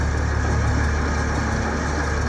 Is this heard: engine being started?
yes